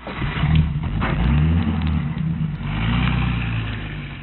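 Car driving off after a street accident: a steady, mid-pitched engine rumble that swells twice as it pulls away, with no voices.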